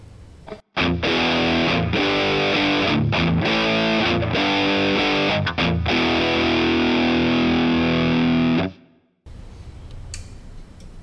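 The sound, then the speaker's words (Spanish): Heavily distorted electric guitar played through an amp simulation with an impulse response cabinet: loud chugging chords broken by a few brief stops, then abruptly cut off, leaving quieter background noise. “Ahora pasemos a mirar con la cabina de impulso de respuestas.”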